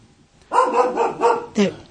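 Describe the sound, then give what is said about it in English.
A dog barks in a short, quick run of several yappy barks, one following another with barely a pause. “You don't often hear Sam barking on the show. I don't know if you can hear him in the background. Oh, yeah, they can hear him.”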